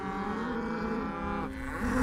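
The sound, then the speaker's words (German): Cattle from a herd with a bull, being driven back by men on foot, give a single drawn-out, low lowing moo. It is rich and steady throughout and swells slightly near the end. “Pass auf, da ist der Bulle.”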